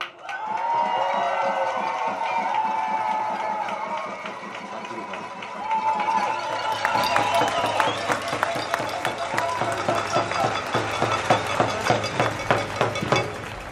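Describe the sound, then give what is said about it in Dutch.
Crowd applause for a speaker at an event opposing war. A murmur of crowd voices comes first, then dense clapping swells in and carries on loudly to the end. “Nogmaals een groot applaus voor Tofik Dibi, alsjeblieft.”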